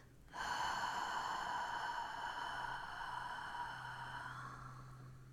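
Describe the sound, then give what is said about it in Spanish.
A deep breath during a guided relaxation exercise: one long, airy breath that starts abruptly and slowly fades over about five seconds, faint and alone. “Vamos a hacer una inspiración profunda y vamos a exhalar.”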